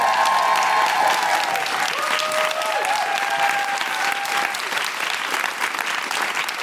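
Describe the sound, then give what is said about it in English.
Audience applause welcoming a host to the stage at a live show: dense, sustained clapping from a large crowd, loud and even throughout. “Put your hands together and welcome to the stage, Deborah Frances White.”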